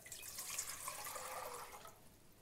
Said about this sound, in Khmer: យើងត្រូវការដាក់ទឹកចំនួនគឺចំនួន700មីលីលីត្រចូលទៅក្នុងឆ្នាំងរបស់យើងនេះគឺជាទឹកដែលយើងវាត់ហើយចំនួន700មីលីលីត្រ